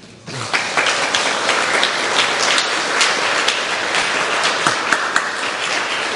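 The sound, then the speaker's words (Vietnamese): Congregation clapping in a Buddhist temple after a dharma talk, applause breaking out abruptly after a quiet moment and continuing as a dense, even patter for several seconds. “Thôi mai mốt đừng có vỗ tay.”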